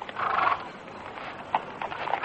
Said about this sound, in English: come take the doctor's horse.